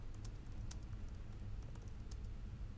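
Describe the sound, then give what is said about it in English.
Fast two-handed typing on a computer keyboard: faint, scattered key clicks in a quick, irregular patter over a steady low hiss. “So I can type with both hands. So I can type faster. Because the faster I type, the faster I'll be done.”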